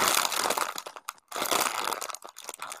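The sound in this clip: Crinkly plastic snack packaging, a salsa, chicken and cheese flavoured crisp bag, crackles loudly as it is torn open, with dense crumpling and tearing noise broken by a brief pause partway through.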